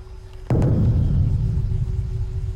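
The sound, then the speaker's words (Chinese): Thunder before rain: a sudden sharp crack breaks into a deep, sustained low rumble that stays loud and rolling until the end. “是雷声。圣上，大概是快下雨了。”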